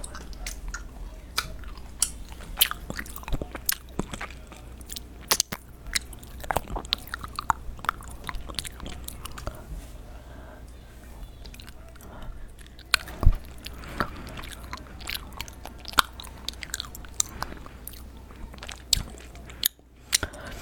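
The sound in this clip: Chewy gummy candies are chewed with many wet, sticky squelches and small crunchy clicks. The irregular, continuous mastication goes on for about twenty seconds with no talk.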